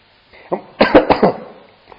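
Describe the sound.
A person coughs and clears their throat: a few harsh, rasping bursts in quick succession after a brief low rasp, with a faint final catch at the end.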